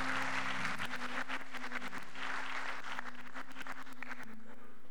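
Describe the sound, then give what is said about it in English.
An audience at a church service claps hands together, a fairly faint, continuous patter of many hands with a low steady hum beneath. “If you love him, just clap those hands.”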